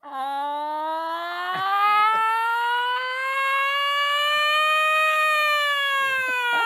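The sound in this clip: A voice imitates an air raid siren with one long, loud, sustained wail that climbs slowly and steadily in pitch, with no talk over it.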